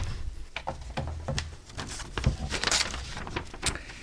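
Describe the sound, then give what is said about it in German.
A box lid being opened: faint handling with soft scrapes and a few light clicks and knocks. “Ich stelle sie Ihnen hin und bitte Sie mal reinzuschauen. Ja, Deckel öffnen.”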